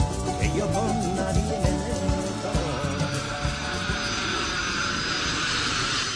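Airplane engine noise, like the audio played aboard aircraft, mixed into a song with a steady rhythmic beat; a broad roaring hiss swells and brightens through the second half.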